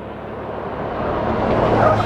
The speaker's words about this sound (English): Suddenly a van turned a corner behind them and came racing up at top speed.